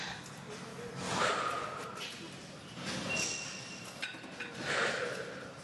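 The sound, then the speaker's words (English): Forceful breathy exhales come from a person pushing a weight at the gym: three strong puffs of air spaced about two seconds apart over a low background. “Do you see how I am exhaling every time that I push?”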